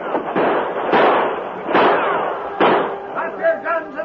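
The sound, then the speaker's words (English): Gunshots ring out as men charge up a ship's gangplank firing, a few sharp, loud bursts over a dense, noisy background, with voices near the end. “Tonto, with the sheriff and his men, ran up the gangplank, firing as they came.”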